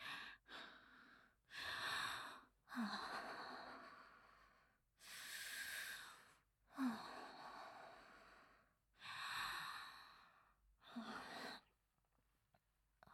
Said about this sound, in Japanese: 深呼吸するから少しだけ待ってください。